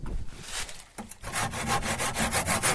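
Wood sawing as a garden tree is deliberately cut into and damaged, making a steady run of rasping back-and-forth strokes. A brief pause comes near the start, then the strokes continue in an even, rhythmic series.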